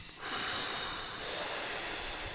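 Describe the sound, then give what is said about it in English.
A deep breath drawn in as a long, steady, airy inhale, fairly faint and heard alone, starting abruptly and held for about two seconds. “And start right now, today. Take a breath.”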